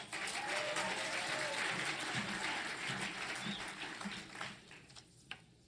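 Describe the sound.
A crowd at a Christian mission gathering applauds to welcome a speaker: dense clapping at first that thins and fades in the last seconds, ending in a few scattered claps.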